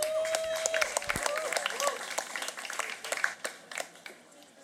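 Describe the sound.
Applause and cheering as a comedian is welcomed to the stage at a comedy show: fairly faint clapping with a few high whoops early on, thinning to scattered claps toward the end.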